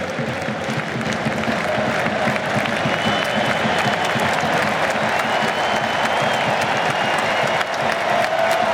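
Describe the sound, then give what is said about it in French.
Sustained stadium applause from a football crowd as a player is substituted off: a dense, continuous wash of clapping and crowd noise at steady loudness throughout. “Ah, belle ovation.”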